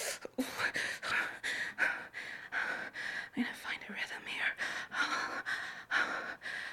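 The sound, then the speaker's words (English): Close, breathy exhalations and soft gasps mixed with whispery breath sounds, rising and falling in a quick, uneven rhythm of many short puffs throughout, fairly faint and intimate. “feel you breathing against my neck”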